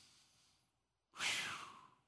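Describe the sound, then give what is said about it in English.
A deep breath drawn in, heard as a loud, airy rush that starts abruptly after a moment of near silence and holds steady for nearly a second before easing off slightly. “Would you breathe in out real quick? One, two, three, breathe in.”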